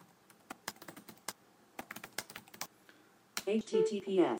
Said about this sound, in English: And did I type it right? I think I didn't.